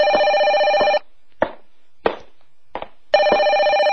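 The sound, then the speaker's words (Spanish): A telephone bell rings in two bright, buzzing bursts, each about a second long. A silent pause separates them, with a few soft knocks in between. No voices are heard. “Déjeme contestar el teléfono.”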